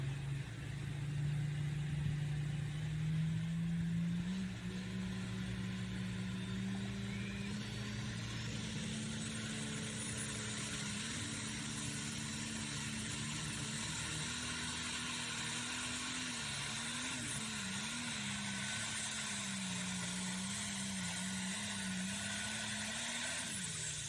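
The engine of a pulling machine with an OEM chassis runs at a pulling competition, a loud, steady, droning roar whose pitch wavers slightly as it holds on without pause.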